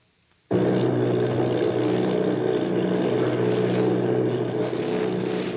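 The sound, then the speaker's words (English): Droning propeller engines of eight army bomber planes start abruptly after a moment of quiet, then hold a loud, steady hum until the end. “Army bombing plane V-843 off Bayonne, New Jersey. Lieutenant Volt commanding 8 bombers, reporting to Commander Fairfax Langham Field.”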